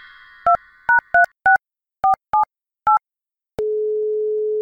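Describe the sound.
Telephone dial tone, then seven short keypad tones, as a call is placed to a business. A steady, lower continuous tone follows and holds to the end.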